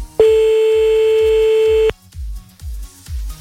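Telephone tone while calling someone back during a call-in contest: one loud, steady beep lasting under two seconds, over a low thumping rhythmic beat that continues after the tone stops.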